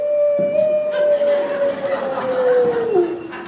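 A person imitates a wolf howl with one long, loud, sustained tone. The pitch holds steady for about three seconds, then slides downward at the end.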